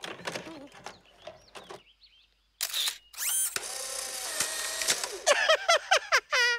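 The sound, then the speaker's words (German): An instant camera takes a photo, starting with a few soft clicks. A sharp snap follows, then a longer whirring mechanical buzz, fairly faint overall. “Ich habe ja hier meinen Fotoapparat. Ja, der macht sogar Fotos, die man sich sofort angucken kann.”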